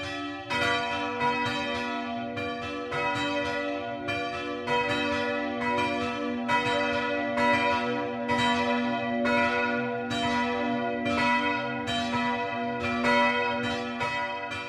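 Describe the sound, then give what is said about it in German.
Several bells of a young sandstone Catholic parish church in a small village in the Franconian Rhön ring at midday, loud overlapping strokes blending into a dense, continuous peal that stays steady throughout, with no voices. “Das Mittagsläuten kommt heute aus Speicherz, einem kleinen Dorf in der fränkischen Rhön, nahe der Grenze zu Hessen.”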